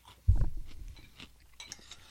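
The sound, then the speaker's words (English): Chewing Marshmallow Mateys cereal with milk: one loud crunchy bite, then a few faint, soft chewing and clinking sounds, with no talking. “Okay, so we're doing a wet. But so far, my first thing is I liked the dry Marshmallow Mateys better.”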